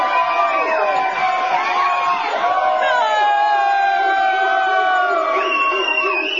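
An audience cheers for the comedian Black Santa at a comedy show at The Hideout, with loud, steady cheering, whoops and shouts that carry on without a break.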